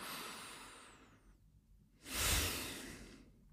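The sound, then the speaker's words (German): A deep breath in and out during a guided meditation exercise: a soft, airy inhale, a short pause, then a louder, breathy exhale. The breathing is faint and alone, with no talking. “Atme einmal tief ein und aus und schließ die Augen, wenn du möchtest.”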